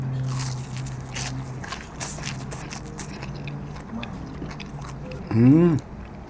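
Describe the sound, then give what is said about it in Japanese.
Raw green peppercorn flesh being bitten and chewed: faint, crackly crunching bites and chewing over several seconds, ending with a short voiced hum. “まず生胡椒の身を食べてみよう。一つこれだけでも軽くおつまみになる感じですね。いただきます。”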